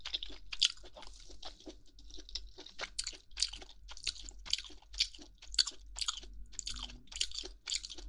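Crispy meat being chewed, with many quick, crunchy bites in a steady rhythm, fairly faint and with no talk.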